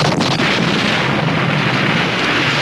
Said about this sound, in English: Now, the front doors of the bank blow apart.